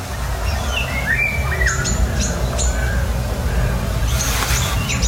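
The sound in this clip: A family of Eurasian golden orioles calls while moving from tree to tree: many short chirps, whistles and squawks over a steady low rumble, with a harsher, louder cluster of calls near the end.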